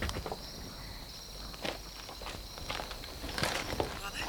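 Footsteps of a person walking closer, a series of soft, irregular steps over a steady background hiss, growing slightly louder toward the end.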